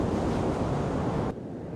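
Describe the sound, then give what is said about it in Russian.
Rippled sea surf beneath a cloudy sky, a steady, dense wash of water noise that drops abruptly in level just before the end. “На серо-голубом небе ватные клочки серых облаков, море внизу покрыто рябью.”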